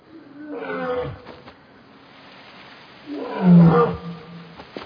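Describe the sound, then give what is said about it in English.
A lion roars twice, deep, rough calls with a quieter stretch between them, the second roar louder and fuller than the first, with no voices. “It really is the lion.”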